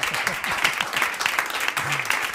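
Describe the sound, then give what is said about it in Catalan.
Group applause for a participant: a steady, dense clatter of many hands clapping that runs throughout, with voices faintly heard underneath. “Un aplaudiment pel David. Un aplaudiment pel David Arnau.”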